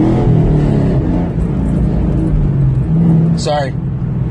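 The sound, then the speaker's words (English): Car engine while driving on a wet road: a loud, steady low rumbling drone that runs without a pause from start to end. “driving my car and got a shift. It's a little wet out, so I gotta be careful, and it's loud.”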